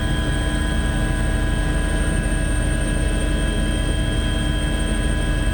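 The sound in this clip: A helicopter flies over the Sea of Marmara during a search for a sunken ship. Its loud, steady drone carries a constant humming tone, unbroken throughout with no voices.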